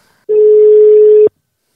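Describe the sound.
A telephone ringback tone sounds while a call is placed: one loud, steady mid-pitched tone about a second long, alone, then silence.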